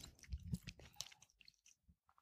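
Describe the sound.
Chewing and biting on a midnight snack: a few crunchy bites, then softer chewing and mouth sounds that fade toward the end, faint and with no talk.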